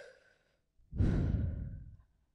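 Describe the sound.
A deep breath ends in a long, breathy sighing exhale that swells quickly, holds for about a second, then trails away softly. No words are spoken.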